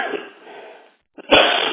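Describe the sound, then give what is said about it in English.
Coughing from someone with a cold and fever: two harsh, breathy bursts separated by a brief silence, the second starting with a short catch and then rising louder and rougher. “I have actually a bit of a cold and fever, but that is why I'm coughing.”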